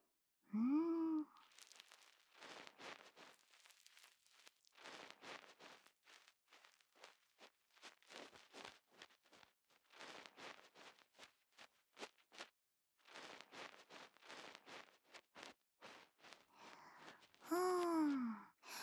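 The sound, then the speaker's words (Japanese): Soft ASMR ear cleaning begins at the outer ear, with many faint scratchy rubbing bursts in irregular clusters. A breathy voiced sigh comes at the start and again at the end. “ではでは、お耳のお掃除始めていきます。まずは外側のところから、こうして、”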